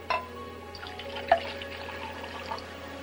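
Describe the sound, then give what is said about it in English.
Wine is poured into a pewter stein: a soft liquid trickle with a few sharp metallic knocks or clinks, fairly faint, with no voices. “reaches for a pewter stein and pours some wine”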